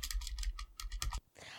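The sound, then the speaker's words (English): Someone writes a few things down, making quick, rhythmic scratching strokes in a faint run of several, then a short pause. “I'm going to just write some things down real quick.”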